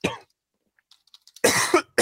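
Coughing and throat clearing from a throat tickle: a few harsh, loud bursts, a short one at the start and a longer raspy one near the end, with near silence between them.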